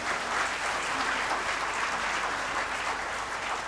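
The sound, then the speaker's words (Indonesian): An audience applauds during a Christmas church service, a full, even rush of clapping from many people that stays at a constant level from start to finish. “Berikan tepuk tangan.”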